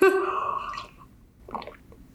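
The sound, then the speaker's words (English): A short, wet slurp as someone sips tea. A brief voiced sound comes first, followed by one quick, moderately loud sipping burst. “Let me sip this tea real quick, y'all.”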